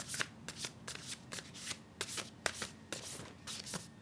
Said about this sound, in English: So I'm going to shuffle the cards and then I will share my thoughts.